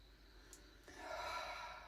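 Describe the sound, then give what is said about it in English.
A deep inhale during a guided breathing meditation: one long, faint, airy breath that begins about halfway through and swells, with no talking. “Feel the sounds of your breath. Inhale.”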